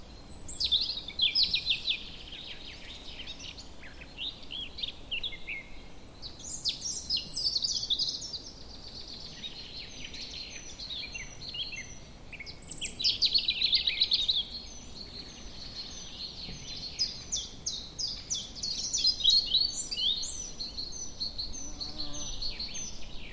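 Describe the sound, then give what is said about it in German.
Birds sing outdoors: many high, quick chirps and trills overlap in a soft, continuous chorus, with brief livelier bursts and no voices. “Versuch, keine Fragen zu stellen und schon gar nicht die nach, welcher Vogel singt denn hier, sondern lass dich einfach nur berieseln.”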